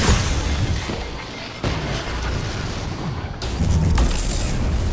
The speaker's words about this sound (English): Grenade on zombie.